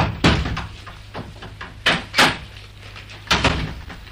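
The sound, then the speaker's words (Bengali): A door is opened, giving a few solid wooden clunks and knocks with small rattles between them, spread unevenly over a few seconds. “Doctor, দরজাটা খোলো। খুলছি।”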